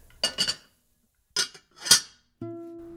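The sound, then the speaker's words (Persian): A metal lid clinks shut on a cooking pot of ghormeh sabzi stew with red beans, set to simmer: a few short clattering knocks, then a steady low hum that holds to the end. “در ظرف رو میبندم و یک ساعت و ده دقیقه بهش اجازه میدم بپزه”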